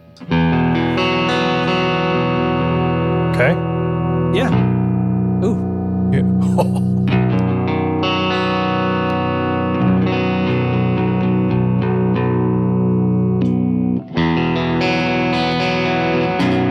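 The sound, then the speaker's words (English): Baritone guitar tuned B to B rings through an effects patch on a Helix unit, loud distorted low chords sustaining in long, moody swells with a few fresh strums, while a voice briefly interjects. “It's a baritone. So here's what it sounds like. I made a Helix patch, which is, this is the one I'm going to share out.”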